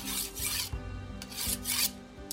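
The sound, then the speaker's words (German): A dagger is sharpened on a whetstone, making a series of faint, gritty rasping strokes in an uneven back-and-forth rhythm, with no voices. “Ich schärfe meinen Dolch.”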